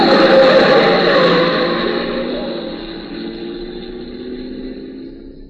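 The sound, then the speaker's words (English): A car engine roars loudly as the car speeds around a sharp street corner, then fades steadily over several seconds until only a faint, thin whine remains. “The lights are dim, the corner's sharp, the car's coming fast, it turns. You don't see it.”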